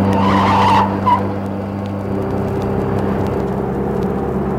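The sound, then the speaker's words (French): Tires screech as a car cuts in sharply and brakes hard, a loud skid in the first second giving way to a steady engine hum. “Maintenant, je vais me rabattre. Avance encore un peu. Là, vas-y ! Une queue de poisson et un coup de frein.”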